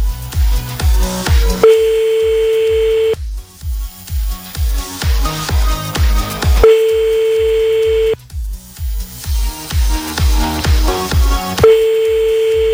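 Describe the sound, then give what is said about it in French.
Ringback of an unanswered telephone call, three long steady tones, each following a stretch of loud rhythmic pulsing music, repeating in a regular cycle with no voice picking up. “Dernier appel, il va pas décrocher, tu vas voir.”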